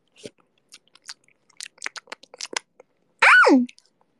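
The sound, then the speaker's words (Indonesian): Someone eats an egg: a few small, wet mouth clicks and smacks, then one loud slurp whose pitch drops sharply. “Aku lagi seruput ini telur. Nyam nyam nyam.”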